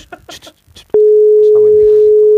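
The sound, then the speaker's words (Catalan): A steady telephone dial tone on a call placed live to a wedding, starting after a moment of talk and holding as one unbroken, even tone to the end. “Estem trucant.”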